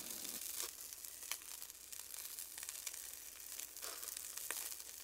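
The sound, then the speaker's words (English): Half an onion sizzles in a pan of butter and olive oil, a faint, steady frying hiss broken by scattered small crackles. No one speaks. “I'm gonna add a little bit more butter, a little more olive oil, and now I'll add half an onion to the pan.”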